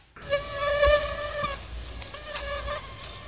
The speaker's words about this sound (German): Dieses Geräusch kennt ihr wahrscheinlich alle. Ein Geräusch, das einen echt in Wahnsinn treiben kann, wenn man schlafen will. Besonders Mücken, die um einen herumsummen und dich stechen wollen.